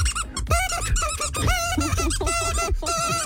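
A squeaky dog toy squeezed again and again gives many high, wheezy squeaks in a quick, uneven series, loud and continuous with no talking.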